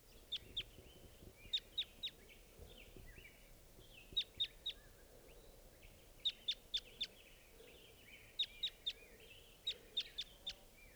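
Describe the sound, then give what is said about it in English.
A wild bird calls in short repeated bursts of two to four sharp, high chirps, spaced a couple of seconds apart, faint against a quiet outdoor background. “There's a wild bird here. Wild bird.”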